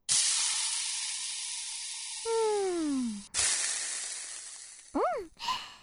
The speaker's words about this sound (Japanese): 今度は少し、この焼き石で焼いてからいただきましょう。